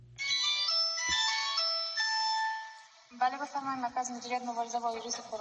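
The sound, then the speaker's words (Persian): A phone rings at a coronavirus hotline centre in Herat: a bright, melodic electronic ringtone plays for about three seconds, then a voice begins speaking. “تماس هایی که پی در پی وصل می شود و اکثران از علائم بیماری کرونا می گویند.”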